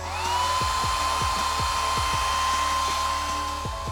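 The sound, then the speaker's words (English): A hair dryer blows with a steady airy rush and a high, constant whine, holding an even level throughout. “Maybe you even just blow-dried your hair.”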